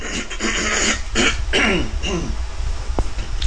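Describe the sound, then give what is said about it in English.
Morning throat clearing by a person at a microphone, a few rough, rasping bursts of guttural hacking that stand alone without talk. “But let me clear my throat.”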